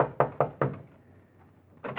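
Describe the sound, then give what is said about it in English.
A fist pounds on a copy room door: three heavy, resonant knocks in quick succession, then a quieter gap, then another loud burst of pounding at the end. “And you pray there's still someone in the copy room as you pound on the door.”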